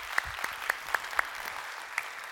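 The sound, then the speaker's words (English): A church audience in North Garnett clapping their hands together: a steady wash of applause with several sharper, louder claps standing out at uneven intervals over about two seconds. “So if you guys would, here in North Garnett, put your hands together.”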